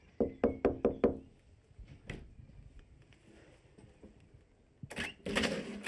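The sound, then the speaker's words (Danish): Knocking on the front door of a house where the doorbell does not work: five quick, sharp raps in a row, then a single further knock after a short pause. “Ringklokken virker ikke. Men jeg banker på.”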